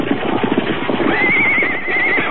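Horses neigh in loud, shrill whinnies, one drawn out and wavering high above a dense layer of stamping hooves and rustling movement.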